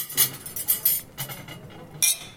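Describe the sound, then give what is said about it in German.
Cutlery set down on a plate after a course during a table-manners lesson gives a series of light metallic clinks and taps. The sounds are quiet, with one sharper clink near the end. “Nach jedem Gang lasse ich das Besteck auf den Teller liegen, es wird abgeräumt.”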